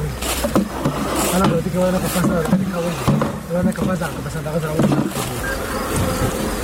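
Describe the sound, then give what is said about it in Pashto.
Honey bees buzzing at a bee farm in Dand district, Kandahar: a steady, dense droning hum that continues beneath a speaking voice. “دا په کندهار کې د دن ولسوالۍ هغه سیمه ده چې د کندهار د نورو سیمو په پرتله ډیر د شاتو د مچیو د روزنې فارمونه لري.”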